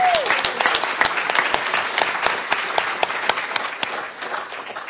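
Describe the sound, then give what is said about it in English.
Audience applause at a school association gathering, a lively spread of many hands with distinct sharp individual claps standing out, continuing for several seconds before thinning slightly. “So I think it's worth giving him a big round of applause because he's not here.”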